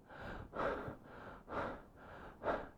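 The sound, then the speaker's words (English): A voice imitates heavy, gasping breathing after running on a court and finishing a point during a game break. Three louder breaths come about a second apart, loud and breathy, with softer airflow between them and no speech. “I used to breathe like this all the time.”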